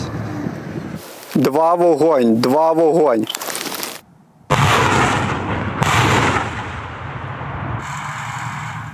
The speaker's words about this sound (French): deux salves de deux roquettes grades pour couvrir des hommes de l'infanterie ukrainienne sous le feu des Russes.